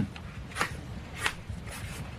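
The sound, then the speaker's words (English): Pencil scratching on paper while drawing a fish symbol: a few soft, brushy strokes separated by short pauses, quiet over a low background hum. “Here, I'll draw it for you.”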